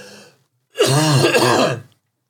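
A person clears their throat with a piece of candy stuck in it, giving one loud, rasping, forceful burst lasting about a second.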